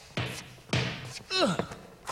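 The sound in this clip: A basketball is thrown and bounces, giving two heavy, dull thuds a little over half a second apart, followed by a brief vocal grunt and another softer knock.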